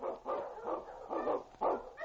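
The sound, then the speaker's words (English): A husky lead sled dog barks in several loud bursts that come at a quick, uneven pace, with no other voices. “The Wonder Dog King, swiftest and strongest of Eskimo lead dogs, blazes the trail through storm and snow for Sergeant Preston as he meets the Challenge of the Yukon.”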